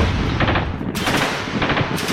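Rapid machine-gun gunfire sound effect in an action drama: dense, loud, continuous rattling bursts with no voices.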